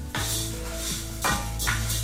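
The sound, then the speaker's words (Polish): Risotto rice being stirred in butter in a frying pan: a steady, bright sizzle with a few louder scraping bursts from the stirring, and no talk. “Dorzucamy ten ryż na patelnię i mieszamy, żeby się pokrył delikatnie masełkiem.”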